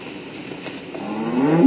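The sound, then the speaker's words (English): A cow moos on a dairy farm, the call swelling in loudness and rising in tone over the final half second after a quiet stretch of faint background sound. “I hear the cows going moo.”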